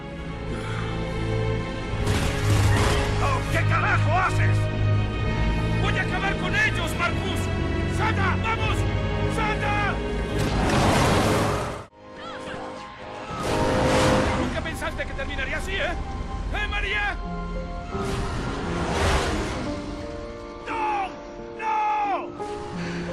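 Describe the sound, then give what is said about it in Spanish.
A video game car speeding up to crash beside a truck with a large fuel tank to save Marcus: loud engine revving over dense backing music, cut by a sudden drop to near silence midway before surging loud again. “a su alrededor un vehículo y un camión con un gran tanque de combustible. Entonces decide abordar el vehículo, tomar impulso y estrellarse para salvar a su amigo Marcus.”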